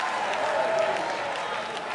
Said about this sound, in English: You can clap once. Go ahead.